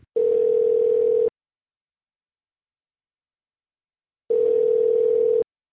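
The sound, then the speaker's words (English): Telephone ringing tone while a call is placed: two identical steady, mid-pitched tone bursts, each about a second long, separated by a long silence. “Why don't you dial her up? That's what I'm doing right now. So let's dial her up and get her on the show.”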